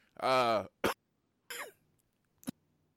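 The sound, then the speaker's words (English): A coughing fit of a few harsh, separate bursts spaced out over a couple of seconds. The first cough is longer and more voiced, and the later ones are short and sharp, with quiet between them. “that was a bit of a coughing fit. Sorry.”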